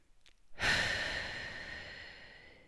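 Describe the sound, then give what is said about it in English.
A deep breath taken during a relaxation exercise: one long, breathy exhale that swells suddenly, then fades slowly over about two seconds, heard alone. “take four big deep breaths. Roll your neck, shrug your shoulders, take the second big deep breath.”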